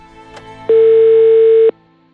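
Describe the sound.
Telephone dial tone while placing a call: a short click, then one loud, steady, even tone lasting about a second before cutting off abruptly, leaving faint background noise.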